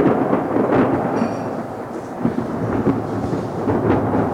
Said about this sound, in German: Warten wir das Gewitter ab.